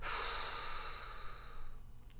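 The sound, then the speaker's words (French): A loud, breathy exhale through the mouth empties the lungs during a breath-holding exercise. It starts strong and trails off over about two seconds. “Vous expirerez ensuite bruyamment par la bouche en vidant entièrement vos poumons comme ceci.”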